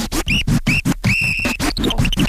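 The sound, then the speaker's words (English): A whistle blown in short, shrill bursts over a thumping bass beat, followed by a longer held note and then a few quick stepped notes. “now I play the whistles. First one whistle,”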